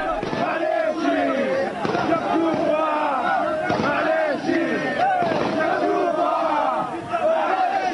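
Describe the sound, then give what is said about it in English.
Rebel fighters and supporters celebrate in Green Square, Tripoli, with loud massed shouting and chanting. Crowd voices surge in repeated waves, forming a continuous, raucous roar throughout. “That's the sound of Zero Hour arriving in Green Square in the heart of Tripoli. Rebel forces have been celebrating in one of the symbolic centres of Colonel Gaddafi's 42-year rule.”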